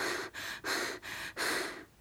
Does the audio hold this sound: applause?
no